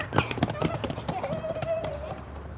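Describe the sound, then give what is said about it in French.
Footsteps of two people racing each other up a flight of stairs: quick, uneven taps and thuds in a rapid run, with a voice carrying a sustained tone over part of it. “Allez, viens ! Zou et Elzé font la course jusqu'en haut.”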